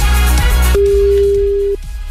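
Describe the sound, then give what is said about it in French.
A telephone rings with a single steady tone, about one second long, over a background music bed. “Attention, ça sonne, c'est peut-être votre téléphone.”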